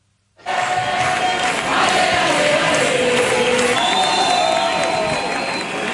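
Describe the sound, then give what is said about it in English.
Street protesters in Spain, rallying over the country's housing crisis, chant and cheer as a dense crowd. The loud roar of voices starts abruptly and holds steady throughout. “So that's the sound of days of protests across Spain over the country's housing crisis.”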